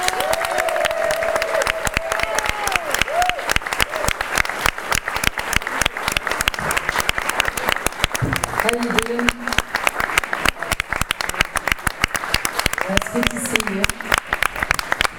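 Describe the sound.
Audience applause welcoming a singer onto a concert stage in Chicago: dense, steady clapping that fills the whole stretch, with a few voices rising faintly through it.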